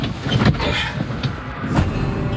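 A large Volvo truck gives off a steady, broad engine rumble with a few brief surges, heard alone without talk.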